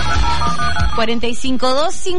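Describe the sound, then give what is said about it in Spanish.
Telephone ringing on a radio show as a caller is put through: a steady electronic ring tone blended with melodic, sliding tones, with talk heard over it. “Y nos vamos al teléfono”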